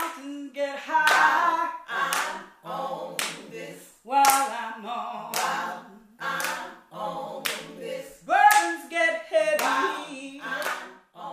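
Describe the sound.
A Milwaukee gospel quartet from Central City churches sings with sharp, rhythmic hand claps. Lively vocal phrases ride over the steady beat of the claps.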